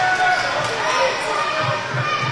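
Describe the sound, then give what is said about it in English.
Basketball dribbled on a court during a game, a few low thumping bounces in the second half under steady background noise and voices. “Step back dribble, finds Cade Courtney. Kind of a dribble and replace.”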